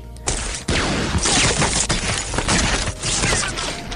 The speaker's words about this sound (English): Suddenly we hear machine gun fire. A few bullets ricochet nearby and they dive for cover.